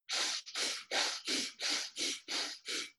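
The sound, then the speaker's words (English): Eight quick, sharp inhalations through the nose in a breathing exercise, evenly spaced in a brisk, steady rhythm. Each one is a short hissing sniff of similar loudness, with no talk. “we're going to do a breath where we do 50 breaths in through the nose. So it sounds like this.”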